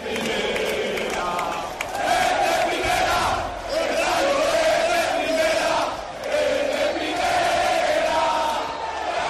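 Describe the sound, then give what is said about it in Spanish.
Rayo Vallecano football fans celebrate at the Fuente de la Asamblea in Vallecas, a loud crowd roaring and chanting in long surges separated by brief dips, with many voices merging into a continuous roar. “Este es el sonido de la afición del Rayo en la Fuente de la Asamblea.”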